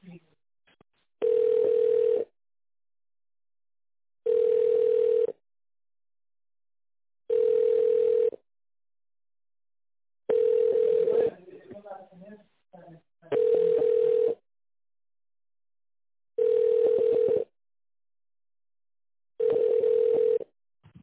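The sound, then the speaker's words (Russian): Telephone line tones while dialing a number in tone mode: seven evenly spaced beeps, each about a second long at a steady mid pitch, separated by silence, with a brief patch of faint irregular tones between the fourth and fifth beep. “Наберите номер 800.”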